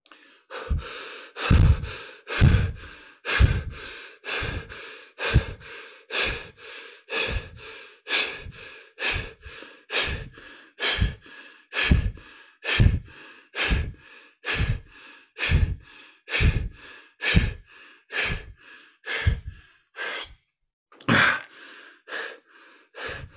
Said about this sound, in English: Now, let's do the breath for 30 seconds starting now.